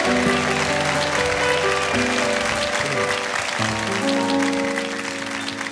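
Audience applause welcomes a guest singer at a live show. Dense clapping runs steadily through the whole clip, mixed with sustained band music.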